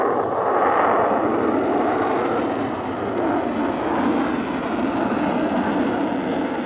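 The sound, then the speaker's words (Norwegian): An airplane accelerates along a runway toward takeoff in darkness. Its engines make a loud, steady roar with a deep rumble that holds continuously for several seconds, with no other sound. “Det er fortsatt mørkt når flyet akselererer i vestlig retning på rullebanen det skal ta av på”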